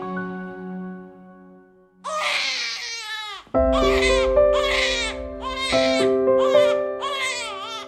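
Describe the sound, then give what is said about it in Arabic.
A newborn baby cries for its mother, loud wailing bursts breaking out after a quiet start and repeating several times in a strained, quavering rhythm. “عيناها راتا النور لاول مره في حياتها قطع ما يربطها بامها تبكي وتبحث عن حضن امها ليهدا روعها”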